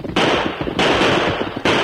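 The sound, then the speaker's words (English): Gunshots in a Western radio drama gunfight: three loud, sharp blasts, each followed by a long rough tail of noise, spaced unevenly across a couple of seconds. “Shoot the gun from the hands. Oh, my gun. Shot my gun to smithereens.”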